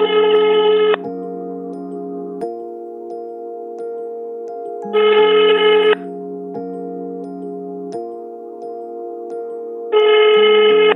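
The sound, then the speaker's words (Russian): Ringing tone of an outgoing phone call: three bright, buzzy bursts about five seconds apart over a steady droning tone, with no talking. “Сейчас я ему позвоню”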